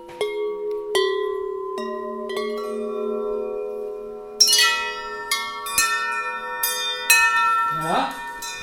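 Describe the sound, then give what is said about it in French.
Metal tubes hung on fishing line ring out in many struck, bell-like tones at an uneven pace. Each sustains and overlaps the last, building a shimmering metallic chord. “Ou alors des tubes, hein, métalliques. Et on les suspend avec du fil de pêche. Hein, et ça sonne.”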